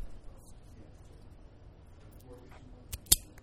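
A cigar cutter slices through a cigar with one brief, sharp snip near the end, after a stretch of quiet low background noise.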